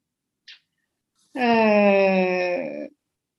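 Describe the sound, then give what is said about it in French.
A baby crying upstairs, one sustained, tonal wail lasting about a second and a half, steady in pitch and dropping slightly at the end, preceded by a brief faint higher sound. “J'ai entendu mon bébé pleurer en haut.”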